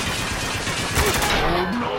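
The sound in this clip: Rapid video game gunfire, aimed at an enemy machine gun, rattles as a dense, continuous barrage of loud shots over two seconds, with a brief voice near the end.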